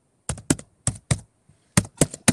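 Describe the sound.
Computer keyboard clicking while searching online: several sharp key clicks in short bursts with uneven pauses between them, crisp and fairly loud against near silence.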